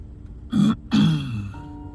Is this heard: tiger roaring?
no